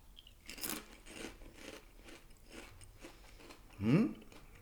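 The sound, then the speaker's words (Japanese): Crunching from someone chewing a Tongari Corn snack stuffed with crushed habanero: faint, scattered crisp bites, then one louder crunch near the end. “はい、とんがりコーンの穴に砕いたハバネロを詰めております。 はい、入ってますね。 はい、食べてみましょう。”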